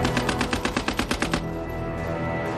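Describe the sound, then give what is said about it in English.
A Lewis light machine gun, rated at 600 rounds per minute, fires one rapid burst of about a dozen evenly spaced sharp shots. The burst stops abruptly and leaves a steady low rumble. “The Australians have one Lewis gun for every 10 men. A potent open warfare weapon that is light, compact, and can fire 600 rounds per minute.”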